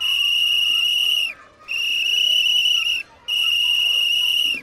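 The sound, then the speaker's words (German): A firefighter's signal whistle sounds a distress signal of three long, shrill, high-pitched blasts. Each is steady in pitch and about a second and a half long, separated by brief gaps. “Ein schriller Pfiff ertönt und noch einer und noch einer. Auch das gehört zu unserer Ausrüstung, eine Signalpfeife”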